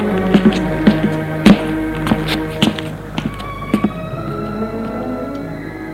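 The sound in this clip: Footsteps on marble stairs and knocking on the concierge's lodge door inside an apartment building. The hard taps and thunks come at uneven intervals, with sharper knocks among softer steps and a low hum underneath.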